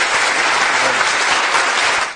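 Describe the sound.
Loud, steady applause follows a song, an even wash of clapping that holds for about two seconds before ending.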